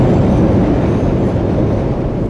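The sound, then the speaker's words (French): A metro train running underground, with a loud, steady rumble of wheels and carriages filling the whole stretch without a break. “Les entrailles de la terre. La bonne et douce chaleur du métro.”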